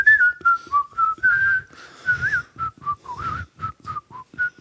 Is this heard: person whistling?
yes

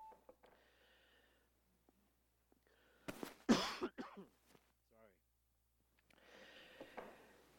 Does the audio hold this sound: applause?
no

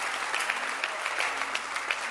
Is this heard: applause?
yes

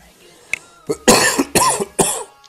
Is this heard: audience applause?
no

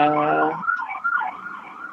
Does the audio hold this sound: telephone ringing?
no

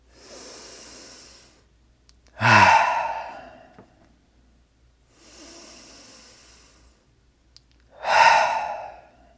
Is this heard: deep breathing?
yes

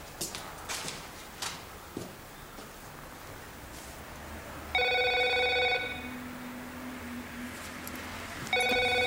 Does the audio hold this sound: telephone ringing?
yes

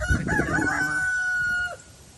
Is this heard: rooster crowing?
yes

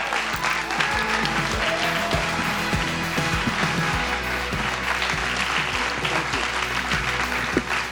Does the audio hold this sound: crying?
no

